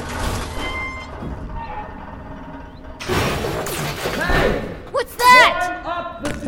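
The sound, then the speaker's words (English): A rusted radio tower's metal lattice is smashed down, giving loud crashing impacts with harsh metallic clatter and scraping, followed by another sharp burst of clanging debris. “He smashed down some kind of metal lattice for us to climb!”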